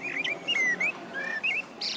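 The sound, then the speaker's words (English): A blackbird sings on a summer evening, with a string of clear, fluting whistled phrases and short chirps in quick succession, fairly soft and with no voices. “It feels like a summer evening, doesn't it? When you hear the blackbird sing like that.”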